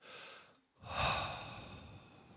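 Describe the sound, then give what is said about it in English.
A deep breath in and out: a softer airy breath, a short pause, then a longer, louder breath that slowly fades away, with no talk. “Perhaps this morning, perhaps right now, taking a deep breath and exhaling”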